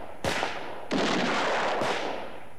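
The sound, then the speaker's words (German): Gunshots in a German-language radio drama: a few sharp, loud bangs, each trailing off in a long noisy decay, with no voices over them. “Klar schießen die. Die müssen doch schießen.”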